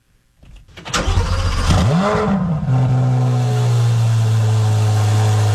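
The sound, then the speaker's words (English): A Corvette engine cranks and fires, swells in a quick rev with rising pitch, then drops into a steady, loud, deep idle that holds to the end. “Well, you're riding the Corvette,”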